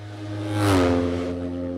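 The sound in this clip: A sidecar racing outfit's engine roars past, swelling to a loud peak and then dropping in pitch as it goes by, leaving a steady engine hum afterward.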